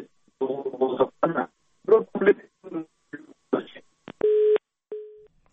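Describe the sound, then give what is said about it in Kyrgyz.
Telephone busy tone after a dropped call connection. It follows a stretch of talk and comes as two steady, mid-pitched tone bursts: a longer one, then a short one. “техникалык себептерге байланыштуу биздин байланышыбыз үзүлүп калды.”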